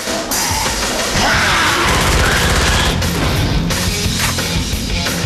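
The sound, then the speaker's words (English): Sustained gunfire in a video game as scientists are gunned down along gantries, a loud, unbroken barrage of rapid shots and impacts with no pauses. “He blasts at another scientist and, using his infrared light, shoots more of them who come running along the gantries.”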